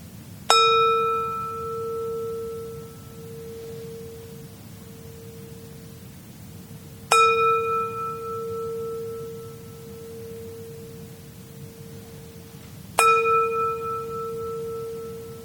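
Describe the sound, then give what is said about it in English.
A meditation bell is struck three times, evenly spaced, to close a meditation. Each strike gives a bright, clear tone that rings on and fades slowly before the next, over a faint steady hiss. “I will now invite the bell. At the third ring of the bell, time to come out of meditation.”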